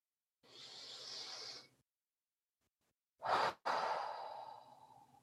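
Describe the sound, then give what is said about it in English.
A slow, deep breath taken to center oneself before a meditation: a long airy inhale, a pause of silence, then a sudden breathy burst and a long, fading exhale. “I'm just going to take a moment to center myself here and take a deep breath.”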